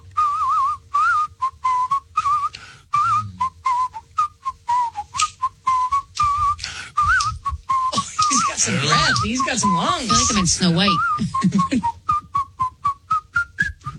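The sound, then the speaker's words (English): A person whistles an improvised tune in many short, quick notes held around a steady middle pitch, with voices briefly overlapping in the middle. “pick a song, play a song, and I'll try to improvise whistling”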